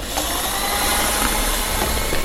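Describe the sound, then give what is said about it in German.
An electric mixer blends margarine pieces into vegan cookie dough ingredients, giving a continuous whirring motor drone with a gritty, even texture and steady loudness, no voices over it. “Das waren alle Zutaten, glaube ich. Ja. Dann kann das unter den Mixer sozusagen.”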